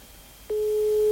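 A telephone ringback tone on a call that goes unanswered: after a short quiet stretch, a steady single-pitched electronic tone starts and holds unbroken to the end.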